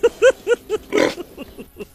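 Young pigs oinking in a rapid series of short, low grunts, with one longer, rougher grunt in the middle, fairly loud and without talk.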